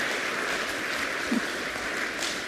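A church audience gives a round of applause after a youth trip presentation: continuous, fairly soft, even clapping without clear breaks.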